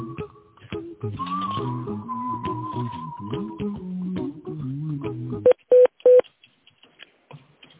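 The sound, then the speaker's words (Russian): Telephone keypad tones dialing an extension number: three loud, quick, high beeps follow a short electronic melody of steady tones, then near silence. “Пожалуйста, дождитесь ответа оператора или наберите добавочный номер сотрудника. По окончании набора нажмите решетку.”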